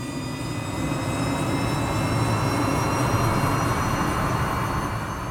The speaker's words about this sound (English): But once the engines rev and the plane takes to the sky,